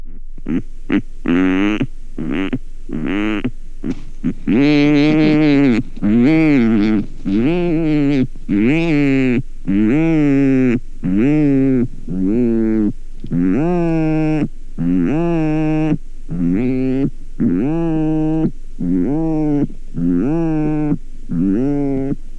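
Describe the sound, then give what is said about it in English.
Low, nasal mooing calls of rhinoceros auklets at their breeding grounds. Many loud calls follow one another in steady succession, each a drawn-out moan, at times overlapping. “those odd sounds, those low nasal mooing calls, they were from the breeding grounds of the rhinoceros auklet.”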